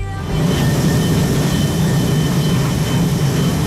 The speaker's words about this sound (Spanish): ¿Nos vamos al aeropuerto? Nos vamos al aeropuerto. Vamos a coger un avión, lo primero.